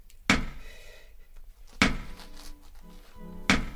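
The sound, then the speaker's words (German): Knocking on a thick stone wall: three heavy, dull thuds at even intervals, each followed by a short fading tail, with quiet gaps between. “Seit Stunden klopfe ich jetzt hier vergeblich an diese Mauer.”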